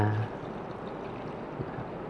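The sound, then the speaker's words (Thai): Milk is poured into an equal amount of water, making a soft, continuous, splashy rush that is fairly quiet and stays even throughout. “นมกับน้ําก็ในอัตราส่วนที่ปริมาณที่เท่ากันนะครับก็นะครับเติมนมลงไปนะครับ”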